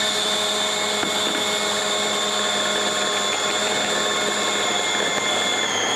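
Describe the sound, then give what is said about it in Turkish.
Whisking a batter of flour and cold water, mixed to a thick dough like mantı dough: a continuous, even whirring drone with a steady pitch and no talk. “ve çırpmaya devam ediyoruz. Mantı hamuru gibi bir hamur elde edeceğiz.”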